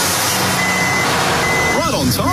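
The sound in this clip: Two long, steady high-pitched reversing beeps from a firewood delivery truck sound over a loud, constant engine rumble.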